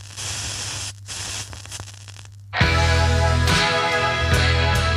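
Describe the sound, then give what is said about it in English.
A needle drops onto side four of a vinyl record. Soft hiss and surface crackle give way to a sudden loud thump, followed by dense, steady crackle and low hum. “We'll flip the record over, and we're going to drop the needle on side four so I can finish out this thing.”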